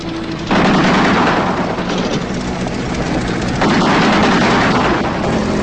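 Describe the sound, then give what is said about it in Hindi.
Loud, continuous rapid gunfire in dense, unbroken bursts, with its intensity stepping up a couple of times. “ये गोलियों की आवाज सुनी?”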